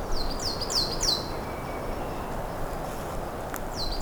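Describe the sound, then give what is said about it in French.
Birds chirp in a forest at mid-mountain elevation in very early spring: a quick run of about four high, bright calls at the start and one more near the end, over a quiet, steady background hush. “Carte postale sonore, en milieu forestier,”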